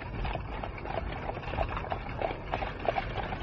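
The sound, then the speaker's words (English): Horse hooves clip-clop at a steady trot as an old-time carriage travels through London, the light, regular knocks sitting just above a constant low background rumble. “Sherlock Holmes and Dr. Watson are discussing the mysterious case of the question marks as they ride in their old-time carriage.”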